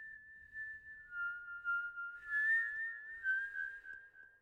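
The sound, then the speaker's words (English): An eerie whistle used as a spooky story effect for a demon holds one high, wavering tone through the whole clip, dipping slightly at times and swelling louder near the middle and end, with no talk over it. “You know he has come for you by his distinctive whistle. If you do hear it,”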